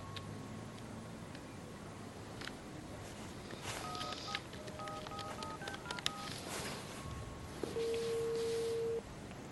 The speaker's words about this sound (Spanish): Marca un número en el teléfono de su dormitorio.